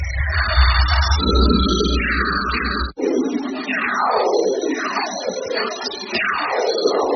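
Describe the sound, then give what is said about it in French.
Audio rendering of solar radio bursts from the Sun: dense, harmonic electronic whistles and drones that sweep downward in pitch again and again, with a brief dropout partway through and several more falling sweeps after it. “Donc ce qu'on vient d'entendre, c'est en fait une transcription audio de ce qu'on appelle des sursauts radio de notre étoile,”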